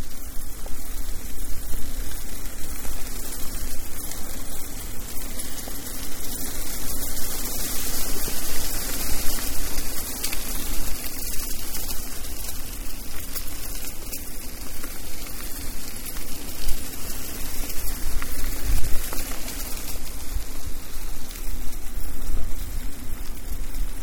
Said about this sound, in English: Yeah, water's going down this way.